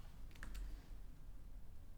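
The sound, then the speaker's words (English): Faint typing on a computer keyboard while writing an email, with a few soft, quick key clicks near the start and then a low, quiet hush. “I opened up my email and started typing”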